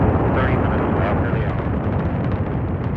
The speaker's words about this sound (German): 3, 2, 1, 0, ignition, liftoff, liftoff.